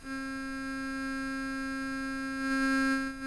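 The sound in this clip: A Monk synthesizer module, just plugged in, produces a steady, quiet electronic tone with a clear fundamental and a stack of even overtones that holds level, then swells slightly louder near the end.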